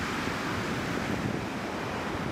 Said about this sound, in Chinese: 滔天海浪反复拍打滨海步道与临海房屋